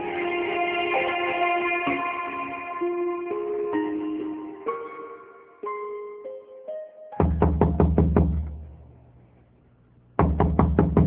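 Knocking on a door in a Bengali drama scene: after a stretch of sustained musical tones, a rapid burst of many sharp knocks, a short pause, then another quick flurry of knocks.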